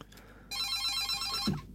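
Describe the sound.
A telephone rings once on a community radio station's open phone-in line. It is a steady, high electronic trill lasting about a second, fairly faint and alone.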